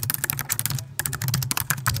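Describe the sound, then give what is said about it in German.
Rapid typing on a computer keyboard with extra loud keys in an office: a dense, continuous clatter of sharp, heavy keystrokes with one brief pause near the middle. “Da hat jemand die Tastatur mit den extra lauten Tasten genommen, weil dieses Anschlaggefühl.”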